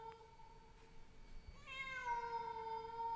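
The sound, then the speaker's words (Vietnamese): A stray cat yowls mournfully, a faint, drawn-out wail that resembles a crying child, with its sustained, tonal cry growing a little stronger in the second half. “một con mèo hoang chạy vụt qua. Con mèo kêu lên những tiếng nghe thê thiết, mơ mơ hồ hồ cứ như là tiếng trẻ con khóc vậy.”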